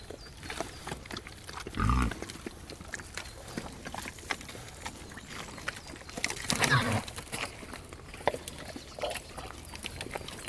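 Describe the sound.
Pigs moving through mud in a forest, with snuffling grunts and wet squelching under a rustling background, plus two louder bursts of movement partway through.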